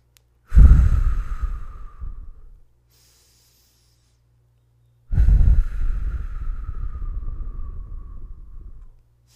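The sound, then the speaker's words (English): Deep, slow breathing during a calming exercise: two long, airy breaths, each a loud rushing sound that fades gradually, with a few seconds of silence between them. “Close your eyes, take three breaths.”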